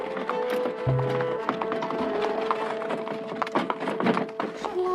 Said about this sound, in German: bis endlich der Tag der Abreise kam und ich in der Kutsche nach Hause saß.